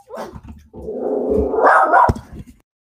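A dog barks in a single loud, rough, drawn-out vocalization with a growly edge, heard alone without talk.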